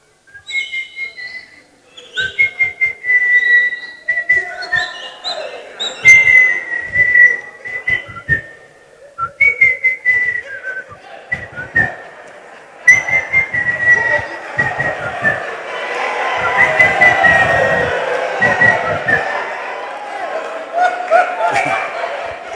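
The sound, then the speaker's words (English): A person whistles from the roadside at night, carrying a wavering, high-pitched tune of short chirpy notes and longer held tones. Later the sound thickens into a denser, busier wash that blends with the melody. “The guy will be whistling from the roadside. They've agreed. As soon as she hears a song,”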